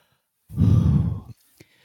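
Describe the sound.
A single deep breath, drawn in as a breathy rush that lasts under a second and then cuts off, followed by a faint click.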